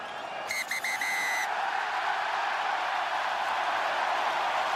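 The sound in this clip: Rugby crowd roaring and cheering at Ireland's grand slam in Dublin, with a few short, shrill whistle blasts at the start before the dense, sustained roar carries on alone.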